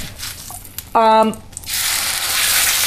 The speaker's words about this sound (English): First you heat the pan, then you heat the oil, then you add the butter, then you cook the mushroom.